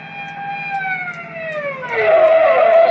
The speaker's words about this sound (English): Hey, that's a cop. That's what you get for driving so fast.